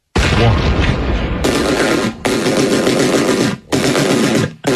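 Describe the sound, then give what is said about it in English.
Loud rapid gunfire from a robot's fire test, heard as four long, dense bursts of machine-gun fire broken by brief pauses. “All right, Ed 209's in place. Is the grandma strapped down? Grandma's strapped in. Commence Ed 209 fire test in 3, 2.”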